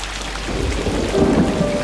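Heavy rain pours steadily with a deep rumble of thunder beneath it, a continuous, even roar of fairly loud downpour with no break and no voices.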